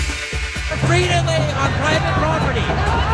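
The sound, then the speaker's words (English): Crowd noise from a protest against border wall construction in Santa Cruz County, southern Arizona: a dense, loud babble of many voices overlapping continuously. “That's the sound of protests that are going on in Santa Cruz County”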